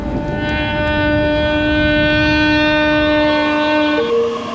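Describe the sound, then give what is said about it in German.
A train arrives at a station platform in a German-speaking station, a loud steady tonal whine over a broad rumble, with the tone shifting just before it cuts off near the end. “Caution, the train is arriving.”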